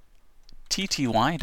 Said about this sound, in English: Just type SSH, your username, I'm MNW, at